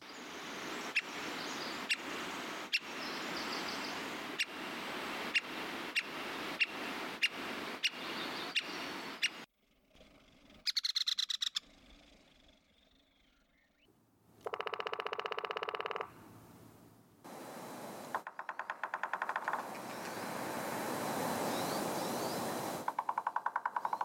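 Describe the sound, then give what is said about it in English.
A three-toed woodpecker, a bird of burned forest in the Olympics, gives a long run of sharp, evenly spaced notes. Short buzzy and rasping bursts follow, with quieter gaps between them. “So the mystery sound is the three-toed woodpecker, which is found in burns in the Olympics.”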